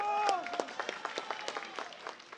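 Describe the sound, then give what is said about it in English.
Voters applaud as a polling station opens in a leafy Caracas neighborhood. The claps are scattered and separate, and a voice sounds briefly at the start before the clapping carries on at moderate volume. “People were clearly excited about voting and even applauded as polling stations opened, like this one in a leafy Caracas neighborhood.”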